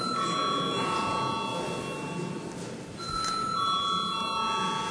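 An electric bell rings in a parliament chamber before a vote. It is a steady, shrill ringing with a buzzing rattle that holds through the whole clip and dips briefly midway.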